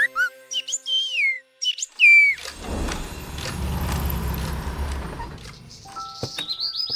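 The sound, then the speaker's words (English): Birds sing in the trees and bushes of a big downtown park, with bright chirps and whistles at the start. A loud, broad rumble then masks them for a few seconds before more chirps return near the end. “Do you hear that? Lots and lots of birds singing.”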